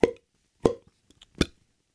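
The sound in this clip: Mouth plops made with the lips, three distinct hollow pops at uneven spacing, each short and clear, with a few faint small clicks between them and no talking.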